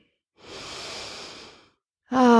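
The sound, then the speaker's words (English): A slow, deep breath drawn in through the nose: one long, soft, airy inhale that swells and then fades, followed right away by the start of a voice. “let's just start by taking some nice deep breaths in through our nose.”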